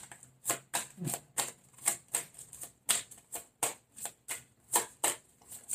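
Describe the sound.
Tarot cards being shuffled and drawn: a rapid, steady run of many crisp, papery snaps and riffles, almost like typing, with no voices.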